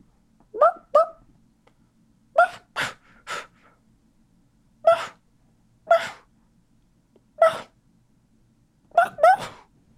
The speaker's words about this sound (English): when she does bark in her sleep, it sounds like this. I'll do my best impression.